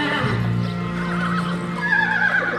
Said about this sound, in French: Le cheval et la jument montent au petit trot.